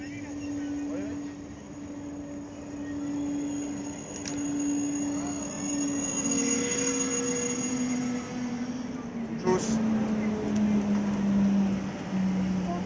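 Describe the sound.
A train sits at a railway station on a misty early morning. It gives a steady low rumble with a sustained tonal hum that dips slightly in pitch toward the end.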